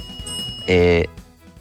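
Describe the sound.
A single bell-like ring, a bright sustained tone with a buzzy edge, sounds for under half a second between stretches of faint background talk.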